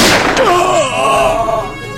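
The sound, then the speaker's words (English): A sci-fi rifle shot in an audio drama opens with a loud, sharp burst that trails into warbling, descending electronic tones, fading out over about two seconds. “You've shot him, man.”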